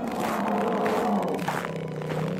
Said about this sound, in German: Biegen Sie hinter dem Eisbär rechts ab. Moment mal, Eisbär?